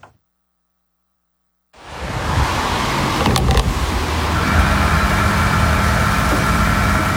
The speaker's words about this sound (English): This is the sound of the most important fuel in the world being bought at a price it's never been bought at before. Diesel moves the lorries that stock your supermarket